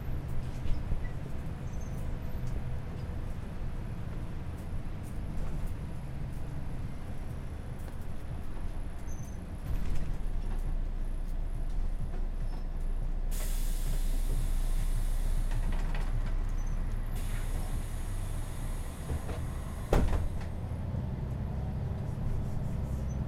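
Inside a city bus driving between stops, a steady low engine and road rumble fills the cabin, and a long bright hiss rises over it midway before the rumble carries on alone.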